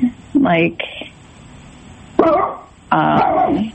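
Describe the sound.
A pet dog barks in a few rough, loud bursts separated by short pauses.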